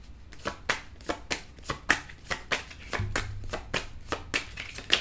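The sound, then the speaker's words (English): Playing cards being drawn and flicked from a deck during a card reading: many crisp, papery snaps in a steady, fairly even rhythm, fairly quiet, with no talk. “So, I want to take some more cards, please.”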